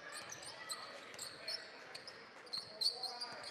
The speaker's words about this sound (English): dribbling up the field, working from our left to right now.